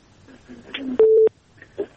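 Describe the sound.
A telephone on a radio call-in line gives one short, steady electronic beep. Brief voice-like sounds come before and after it.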